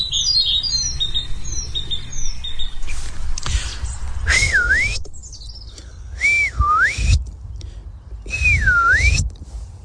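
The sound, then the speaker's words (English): A man whistles an imitation of a lapwing (green plover, peewit) call: three clear, evenly spaced whistles that each dip and rise again in pitch. A steady low rumble runs underneath, and faint bird chirps sound at the start. “Yes, it's my poor impersonation of a lapwing, and or a green plover, or a peewit. It's onomatopoeic,”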